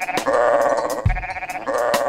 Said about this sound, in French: Ce petit mouton fait.